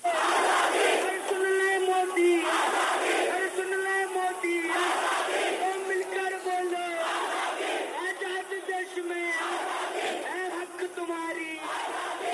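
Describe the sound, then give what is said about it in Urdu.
A large crowd at a protest in India chants the Azadi (freedom) slogan associated with Kanhaiya Kumar: loud, rhythmic, repeated voiced phrases that rise and pause in regular bursts throughout. “یہ Jawahar Lal Nehru university کی طلبہ union کے سابق صدر کنہیا کمار کا آزادی کا نعرہ ہے جو آج پورے ملک میں گونج رہا ہے.”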